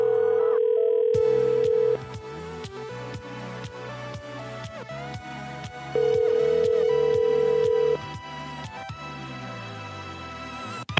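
Telephone ringing tones on a phone line in a prank call, with two long, steady, loud tones near the start and middle, set over a busy, rhythmic backing of plucked, music-like notes.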